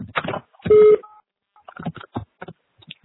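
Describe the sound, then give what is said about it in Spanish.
A voicemail system sounds a single short, steady electronic beep to mark the start of recording, with brief voice-like fragments just before and after it. “Para marcar mensaje borrado, por favor, grabe su mensaje después del tono.”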